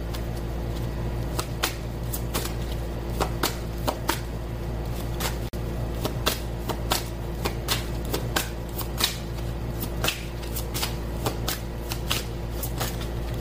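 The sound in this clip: Tarot cards being shuffled: many crisp riffling snaps and flicks over a steady low hum.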